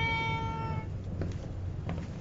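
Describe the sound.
A cat, set down on a kitchen counter in an apartment, meows once. The cry is drawn out and rich in overtones and stops within a second, leaving quieter low rumbling and faint shuffling noise.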